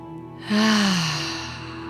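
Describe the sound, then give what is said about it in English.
A deep breath drawn in during a guided grounding meditation: a long, airy inhalation that starts abruptly, swells, then slowly tapers, heard over a soft, steady sustained tone. “Taking a deep breath in.”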